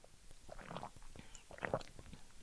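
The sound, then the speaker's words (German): Soft sipping and swallowing of a person drinking a couple of sips, with faint, irregular mouth and throat noises at low volume and no talking. “ich bin noch ehrlich, ich trinke noch zwei Schlücke.”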